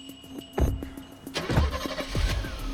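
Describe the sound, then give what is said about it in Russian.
A car engine rumbles as the vehicle pulls away, scene from an audio-described film; a couple of low thumps come first, then the engine noise swells and holds at a moderate level. “Машина Глеба уезжает.”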